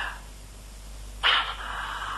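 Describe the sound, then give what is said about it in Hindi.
Police dogs bark: one loud, sharp bark with a trailing whine stands out over quiet background noise, after a fainter sound at the start. “अच्छा तो police के कुत्ते आकर मेरे पीछे लग ही गए”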